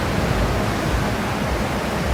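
Water spraying from a fairground ride makes a loud, steady rushing hiss. It stays continuous and even throughout, with no talk.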